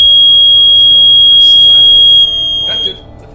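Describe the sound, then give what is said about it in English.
A smoke alarm going off during cooking gives a steady, piercing high-pitched tone for about three seconds before it cuts out. Faint voices are underneath it. “Okay, she's cooking. And our smoke alarm is...”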